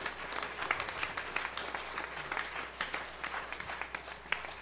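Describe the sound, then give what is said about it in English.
A church audience applauds to welcome new members into the church on Pentecost Sunday: steady, continuous clapping with individual sharp claps popping out above the wash. “would you just give them a hand of welcome, an excited welcome officially into our church body?”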